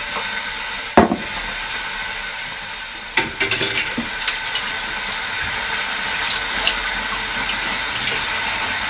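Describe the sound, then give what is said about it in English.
Dishes being washed up in a sink under running water: a steady hiss of flowing water, one sharp knock near the start, then a scatter of smaller clinks and knocks. “Take a seat whilst I'm washing up.”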